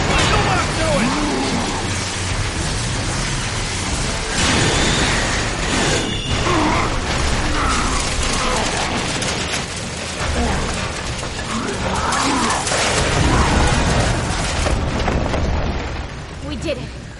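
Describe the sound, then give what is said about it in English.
In a video game, a giant, tank-sized rock drilling machine in a mine pins an enemy against a wall and impales him: a continuous loud mechanical grinding and crushing roar with creaks and clanks, with voices mixed in. “That is the sound of a tank-sized rock drill pinning Ustinak against a wall and impaling him”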